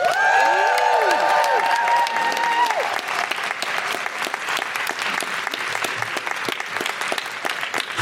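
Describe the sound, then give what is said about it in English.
Loud audience applause and whooping cheers welcome a show's co-host, with high rising-and-falling whoops standing out during the first few seconds before steady, dense clapping carries on alone. “Please put your hands together and make incredible woohooing noises”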